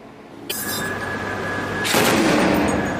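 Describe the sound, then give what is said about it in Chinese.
A warship's main naval gun fires blocking fire during a rescue drill: two heavy booming bursts, the second louder and broader, each followed by a sustained roaring wash of noise. “射击演练完毕后，昆明舰及时调整阵位，转入武力营救行动部署，准备通过主炮实行拦阻射击。”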